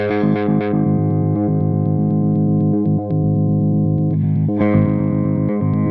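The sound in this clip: Effects pedal on a sequence setting with random, LFO-like modulation, giving a loud, distorted, sustained tone that is chopped by irregular stepping pulses and shifting timbre.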